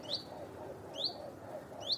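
A robin calls three times in short, high chirps spaced about a second apart. Each bright note stands clear above a low, steady background hiss.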